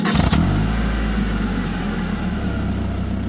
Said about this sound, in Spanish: El papá sacó el camión y lo encendió para calentar el motor mientras terminaban de alistar la salida de emergencia.